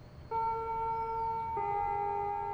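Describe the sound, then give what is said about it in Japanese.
A school chime rings in clear, sustained electronic tones. One note is held, then it steps to a second note that carries on steadily to the end. “といったところで、やっとチャイムが鳴ってくれた。”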